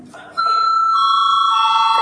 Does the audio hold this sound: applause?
no